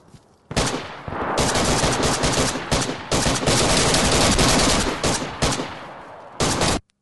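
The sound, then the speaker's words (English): Video game gunfire rattles in dense automatic bursts, with many rapid shots running almost without a break for several seconds before cutting off sharply. Loud and continuous, with no voices over it. “Why is nobody firing? There they go.”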